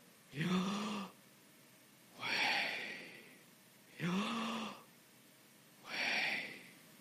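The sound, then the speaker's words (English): Deep breathing done as a breathing exercise: four slow, evenly spaced breaths, each a soft rushing swell of air, quiet and alone. “I kind of call it as a breathing exercise. And it's when we inhale,”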